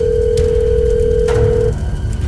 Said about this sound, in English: Hold on, I have to make one last phone call.